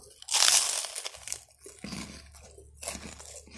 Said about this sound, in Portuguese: eu tô pedindo já desculpa porque eu vou continuar comendo.